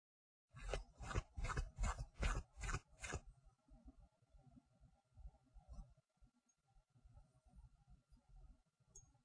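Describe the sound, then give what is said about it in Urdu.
A comb being rubbed: a run of strong, rhythmic rasping strokes at first, followed by many fainter, uneven scrubbing rubs, with no talk. “اب میں پہلی والی کنگھی کو بھی رگڑتا ہوں.”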